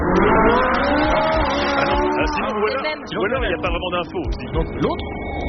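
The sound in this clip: An electric Ferrari drives with a loud, smooth, high whine of gliding tones and some tyre noise, a steady sound with no engine roar for the whole stretch.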